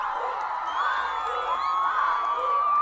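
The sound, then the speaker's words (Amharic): Cheering crowd with shrill children's shouts and whoops greeting a visiting polytechnic team and the home school team before a school match, a sustained, even roar without distinct claps. “መጀመሪያ እንግዳችንን የፖሊቴክኒክን ቡድን በጭብጨባ እንቀበለው። እሺ አሁን ደግሞ ለትምህርት ቤታችን ቲም ሞቅ ያለ ጭብጨባ።”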